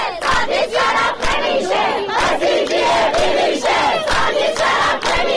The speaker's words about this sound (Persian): دانشگاه رازی کرمانشاه دست به تجمع‌های اعتراضی زدند. صدای دانشجویان دانشگاه رازی کرمانشاه رو بشنوید.